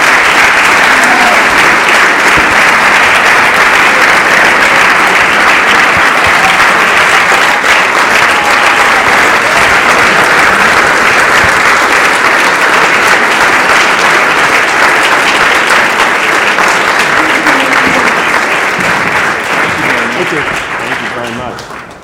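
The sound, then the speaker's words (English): An audience at a Special Olympics event gives a standing ovation, with loud, dense, continuous clapping that holds steady for over twenty seconds before tapering slightly at the end. “I know that was a standing ovation for Daniel, because I haven't gotten a standing ovation from a U.S. businessman.”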